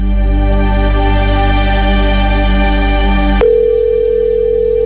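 Telephone ringing tone during a quiz show: a steady, loud electronic tone with a buzzy harmonic texture that abruptly switches to a single purer, lower tone near the end.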